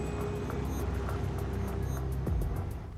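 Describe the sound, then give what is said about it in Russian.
A car pulls off and drives away, its engine giving a steady low rumble that swells briefly near the end and then fades out. “Машина Вадима трогается с места и уезжает.”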